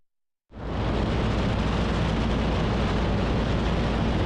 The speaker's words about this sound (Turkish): Dedesinin uçağıyla antrenman uçuşunu işte böyle yaptı.